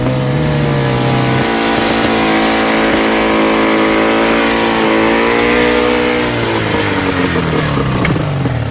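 A racing car engine revving: a loud, sustained, buzzing harmonic drone that steps up in pitch early on, holds, then sags lower toward the end, with no voices over it.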